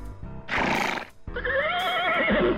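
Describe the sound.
A horse whinnies in reply to a knight: a short, rough breathy burst, then a long, high, wavering whinny that quavers in pitch, loud and with no talk.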